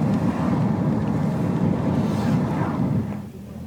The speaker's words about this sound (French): Il est agité la mer, hein, quand même. Il est agité. Gros cargo.